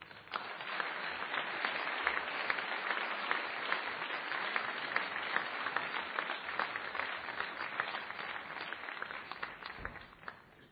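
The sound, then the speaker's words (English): Sustained applause from a debate audience welcoming the debaters onto the stage: a fairly faint, dense clatter of many hands that holds steady throughout and thins slightly at the end. “I'll raise my hand and I'll ask you to applaud. And I'll ask you to do the same thing the first time I mention each of the debaters by name, who are now be taking the stage. Let's welcome them.”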